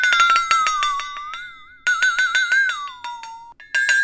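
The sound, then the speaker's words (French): A flexatone-like instrument, a very thin metal blade struck from each side by two balls with adjustable tension, rattles out rapid repeated metallic strikes over a ringing tone whose pitch wavers and slides down, then jumps back up. “C'est une lame métallique, très fine. Et il y a deux boules qui tape dessus de chaque côté, et toi tu peux tendre la lame ou la détendre.”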